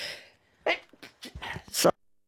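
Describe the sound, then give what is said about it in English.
A woman gives a little sneeze, a few short, breathy bursts ending in a sharper puff, all fairly faint. “She was just having a little sneeze.”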